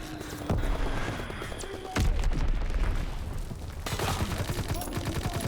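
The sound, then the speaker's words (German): SMG fire in a video game: several sharp bursts of rapid gunshots break out one after another, loud and punchy, with a rattling spray of shots between the heavier onsets. “Spray and Pray ist halt saugut wieder. Mit SMGs.”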